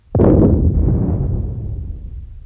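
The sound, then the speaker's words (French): A cannon fires in an artillery bombardment against Austrian troops: one loud, sudden boom followed by a deep, rolling rumble that slowly fades over about two seconds. “On continue le bombardement jusqu'à ce qu'ils soient hors de portée.”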